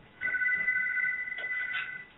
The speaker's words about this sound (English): I got a phone ringing here, and I had to go put that in the other room.